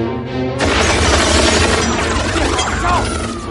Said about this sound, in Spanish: Los de arriba rompen los cristales de la ventana y disparan rompiendo un reflector.